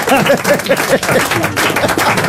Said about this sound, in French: On applaudit les frères Lego. Bravo.